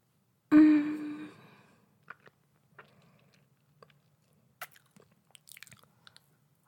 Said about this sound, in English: Let me just taste the dip first.